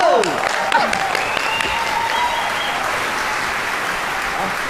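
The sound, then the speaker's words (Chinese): Sustained audience applause at a Chinese crosstalk comedy performance, a dense, steady wash of clapping hands that holds at an even loudness throughout, with voices mixed into the crowd noise. “咱们就以热烈的掌声，有请高玉清老师表演这段《武松打虎》。”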